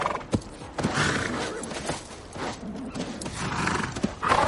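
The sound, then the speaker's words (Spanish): Restless cavalry horses pawing and stamping the ground beside an army on a frozen plain at night, giving a continuous rough clatter of hooves with occasional sharper knocks. “Algunos caballos manotean inquietos.”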